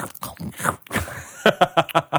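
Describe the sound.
Someone bites and crunches a raw carrot close up in ASMR style, producing a quick series of crisp, loud crunching chews.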